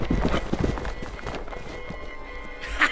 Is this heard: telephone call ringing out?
no

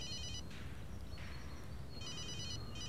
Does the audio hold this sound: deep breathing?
no

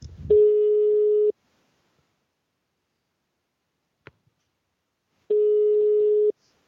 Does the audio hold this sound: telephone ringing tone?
yes

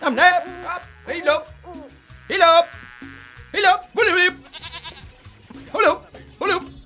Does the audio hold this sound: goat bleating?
yes

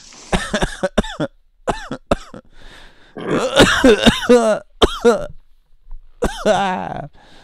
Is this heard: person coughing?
yes

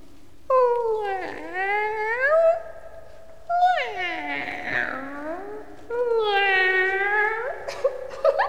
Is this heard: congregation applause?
no

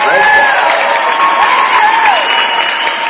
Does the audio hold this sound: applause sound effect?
yes

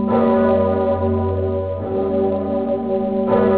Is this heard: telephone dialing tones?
no

